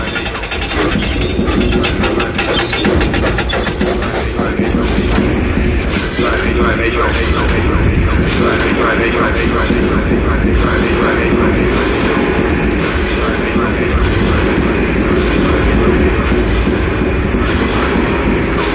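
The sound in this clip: A locomotive running on rails, a loud, continuous rumble with a rhythmic clickety-clack of wheels that holds steady the whole time.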